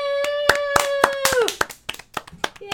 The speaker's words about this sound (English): you guys give yourselves a round of applause